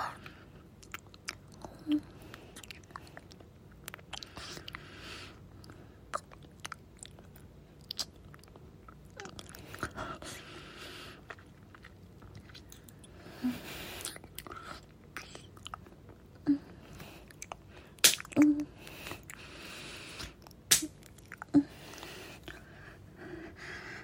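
Food is being chewed with soft, wet smacks and small clicks. They come irregularly and stay faint, with breathy sounds in between and a few sharper mouth noises toward the end.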